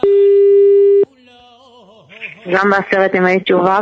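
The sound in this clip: A telephone busy signal sounds as a call is placed, one steady unbroken tone lasting about a second before it cuts off, followed after a short quiet stretch by a person talking.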